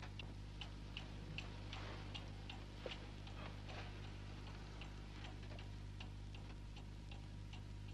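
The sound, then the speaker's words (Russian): Steady ticking of a cuckoo clock: a faint, regular tick-tock repeating many times at an even pace over a low constant hum, with no voices. “Все смотрят на часы с кукушкой. Они показывают без несколько минут 10.”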